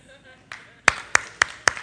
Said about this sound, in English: That's worth an applause.